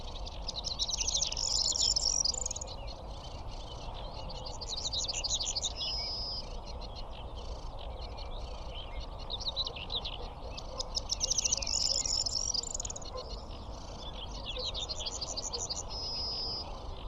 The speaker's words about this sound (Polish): O, rokitniczkę słychać.